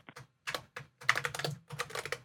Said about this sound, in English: bear with me a sec while I just type up some notes